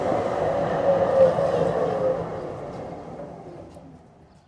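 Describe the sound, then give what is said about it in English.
A tram's low rumbling drone with a steady mid-pitched whine, holding fairly level before gradually fading away toward the end. “Ah, here's the tram.”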